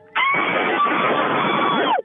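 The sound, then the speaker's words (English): A caller screams into a phone, producing one sustained, shrill scream lasting nearly two seconds that sounds thin and clipped from distortion over the line. “I think you're over, like, you're distorting your phone because you're so scary with the scream. So do it again, but just when you do it, pull the phone away a little bit.”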